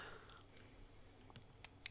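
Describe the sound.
Faint clicks of a computer mouse while browsing web pages: a few scattered, sharp ticks over low hiss, with a small cluster near the end.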